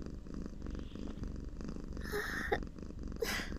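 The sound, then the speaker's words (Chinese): A cat purrs contentedly as it is cuddled and sniffed, a steady, low, continuous rumble that stays soft throughout. “才吸两口就发出这种舒服的咕噜声，一点都不矜持，真是只随便的猫猫。”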